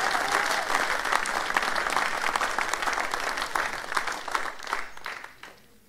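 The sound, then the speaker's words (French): A church audience applauds, with sustained, loud, dense clapping that carries on evenly before dying away in the final second. “Est-ce qu'on peut acclamer le Seigneur ensemble Acclamons le Seigneur ensemble.”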